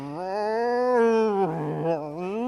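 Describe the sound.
A voice imitates the low, weird growling of cats staring each other down on a lawn. It is one sustained, moaning, howl-like tone that lasts the whole clip and wavers, dipping briefly in the middle.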